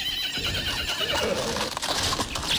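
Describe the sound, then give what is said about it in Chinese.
A horse pulling a carriage neighs loudly over a continuous clatter of hooves and rolling movement, a dense, busy sound with no clear gaps. “马车走了一会儿，已经行到了长安城的西北角，也就是茂陵附近，他们停了下来歇息。”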